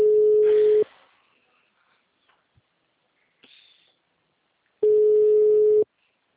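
Ringback tone of an unanswered phone call: two long, steady buzzing tones about four seconds apart, with faint clicks in the quiet gap between them.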